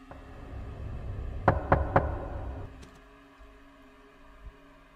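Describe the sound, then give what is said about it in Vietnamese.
Knocking on the door of a rich landowner's house at night: three sharp knocks in quick succession over a low background rumble, followed by two fainter taps. “lão lại giật mình, bởi vì tiếng gõ cửa lại vang lên”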